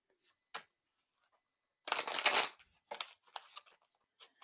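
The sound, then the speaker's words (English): Cards shuffled for a card reading: a soft riffling burst lasting about half a second, with a few faint taps and flicks before and after, quiet overall. “let's throw some cards”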